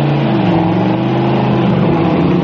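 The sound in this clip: Cars drive up with their engines running, giving a loud, steady, low engine drone that holds throughout without pause, with no talking.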